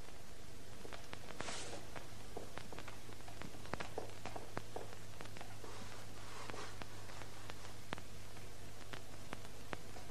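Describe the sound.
Footsteps of someone walking up to the blackboard in a classroom, many soft, irregular taps and scuffs over a low, steady hum.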